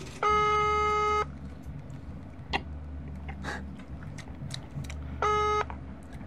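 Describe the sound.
Telephone ringback tone as an outgoing call is placed: two steady electronic tones, the first about a second long and the second shorter after a long gap, over a faint background hum.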